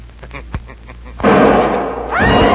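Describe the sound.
A gunshot goes off in a radio drama: after a quieter stretch, a sudden loud blast bursts in and its rough, noisy roar lingers, swelling again near the end.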